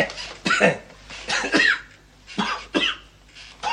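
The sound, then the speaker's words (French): Coughing by a patient told to cough during a medical examination: several harsh, voiced bursts in uneven clusters, fairly loud, separated by short quiet gaps. “Tournez-vous. Toussez.”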